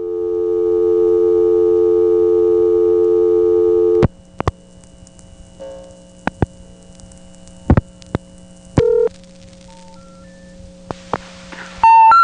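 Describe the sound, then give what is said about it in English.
Intercept signal from an SP1 software-controlled crossbar telephone switch on an unanswered line in Lafayette, Georgia, in the 1980s: a steady low tone holds for about four seconds, then gives way to sharp relay clicks and short tones. “Here's a recording of an SP1 in Lafayette, Georgia, in the 1980s, doing just that.”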